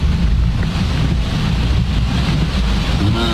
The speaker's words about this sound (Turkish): Abi öyle böyle yağmıyor. Şeye bak. Şuradan gelen suyun hızına baksana ya. Aynen. Dere olmuş.